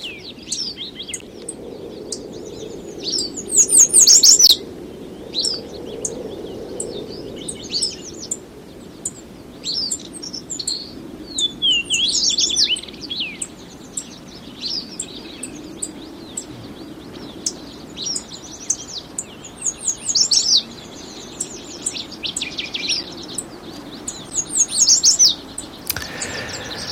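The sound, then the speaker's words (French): Birds chirping and singing in the woods: many short, high tweets and trills come in scattered bursts over a faint, low, steady background hum. “Et c'est vrai que quand on va dans les bois, quand on va se promener dans des endroits sauvages, on les entend. Mais il y a une inquiétude à entendre de moins en moins d'oiseaux”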